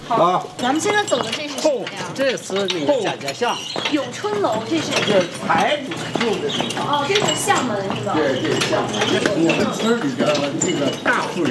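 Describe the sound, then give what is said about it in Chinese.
Crisp clip-clop of horse hooves as a villager drives a horse cart into an old fortified village along red stone-slab lanes, with repeated hoofbeats running under continuous talk. “就在这时，身后响起了清脆的马蹄声，一位村民驾着马车驶进了堡内。”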